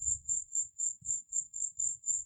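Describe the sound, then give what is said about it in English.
Crickets chirping at night: a steady, evenly spaced train of high, shrill pulsing chirps repeating throughout, with a faint low rumble beneath. “Many crickets.”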